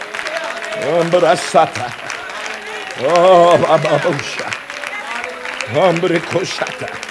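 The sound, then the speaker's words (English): Congregation clapping hands at a church service, a steady wash of applause throughout with a loud voice calling out over it in several bursts. “Somebody clap those hands and give God glory.”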